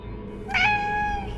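A cat meows once at night, a short, clear, mid-pitched call with a steady tone, heard over a constant low background hum.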